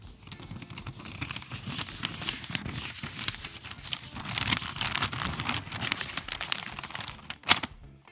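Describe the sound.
Paper crinkling and rustling continuously for several seconds, a dense crackly texture that swells slightly midway, with one sharper crunch near the end.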